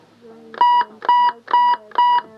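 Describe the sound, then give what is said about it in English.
Personal emergency alarm pendant sounding, a square device on a string with a button in the middle; four identical loud electronic beeps in a steady, evenly spaced rhythm. “the alarm around her neck, a kind of electronic buffer for an at-times violent relationship. It's on a string, and it's shaped like a square, and then there's a button in the middle. And it sounds like this.”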